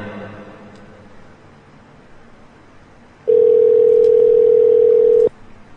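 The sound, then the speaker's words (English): A telephone line tone sounds while a call is placed, one loud, steady, unbroken pitch lasting about two seconds before cutting off into quiet background noise. “I'm calling Juan right now. Calling Juan.”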